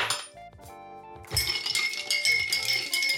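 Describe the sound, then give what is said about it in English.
Ice clinks in a glass as it is stirred with a shot of vodka for a brunch Bloody Mary. A few bright, ringing clinks come first, then a louder, continuous rattle of ice against the glass. “So obviously I'm going to have to grab some ice and get a shot of vodka. Give that a stir.”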